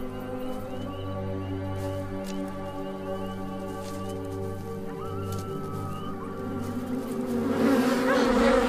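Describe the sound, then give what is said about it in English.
A swarm of insects buzzes around a cowering person in pitch darkness. The steady, droning hum layers several tones and keeps on without a break, growing louder and hissier toward the end. “She cowers, covering her head as insects swarm around her.”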